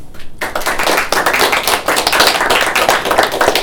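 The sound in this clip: An audience applauds to welcome two speakers: after a short quiet moment, loud, dense clapping bursts in and carries on steadily to the end.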